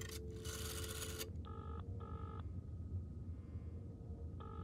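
Telephone keypad dial tones aboard a ship: three short steady electronic beeps, two close together and a third after a pause, following an opening burst of scraping noise, with a low hum underneath throughout.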